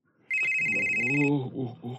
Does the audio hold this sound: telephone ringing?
yes